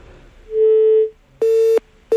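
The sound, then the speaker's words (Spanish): Busy tone after a dropped phone call: loud, steady mid-pitched electronic beeps separated by short silences, two full pulses and a third cut off, with no voices. “Bueno, parece que se nos ha colgado la llamada.”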